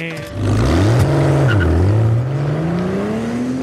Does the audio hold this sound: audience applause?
no

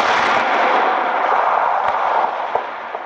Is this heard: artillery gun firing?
yes

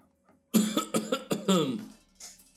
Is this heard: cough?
yes

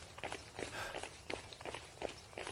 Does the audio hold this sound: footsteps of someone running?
yes

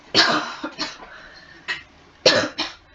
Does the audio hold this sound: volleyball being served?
no

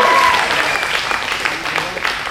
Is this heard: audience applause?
yes

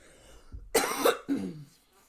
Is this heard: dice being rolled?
no

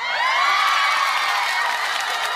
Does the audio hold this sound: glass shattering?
no

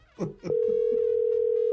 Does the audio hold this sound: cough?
no

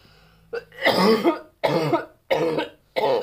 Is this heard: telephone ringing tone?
no

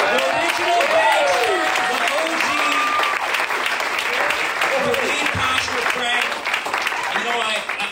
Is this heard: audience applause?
yes

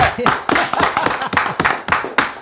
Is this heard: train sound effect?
no

